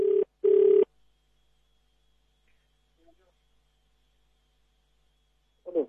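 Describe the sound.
An unanswered telephone rings twice in short, buzzy bursts at the start, then goes quiet. A voice starts up faintly at the very end.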